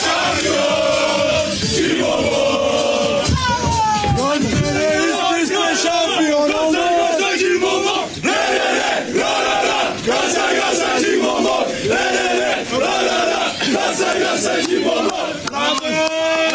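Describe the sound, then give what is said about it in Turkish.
Galatasaray fans in the stands loudly sing and chant together as the team joins them to celebrate a league championship, with rhythmic repeated phrases over a constant roar that stays at full volume throughout. “Sarı kırmızılı ekip tribündeki taraftarına giderek şampiyonluğu onlarla birlikte kutladı.”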